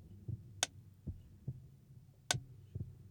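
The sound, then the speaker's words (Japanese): A steady heartbeat of faint, low, muffled thuds in a slow pulse against a quiet background, with two sharp clicks standing out. “心臓の鼓動が規則正しく聞こえる。”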